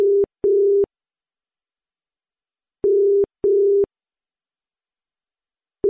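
Ringback tone on an outgoing telephone call: a steady, low electronic double buzz that repeats about every three seconds, with silence between. Two full cycles play, then a third begins.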